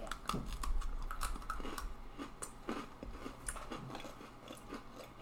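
Crunchy chewing of blue and pink cotton candy Oreo cookies, with many irregular bites and crunches in a steady run and no talking.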